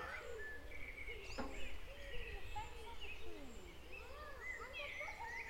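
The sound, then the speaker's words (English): Birds sing in a garden of ferns and primulas beside a little stream, with many faint chirps and warbling calls overlapping against a soft, steady background. “And if you listen to the birds in here,”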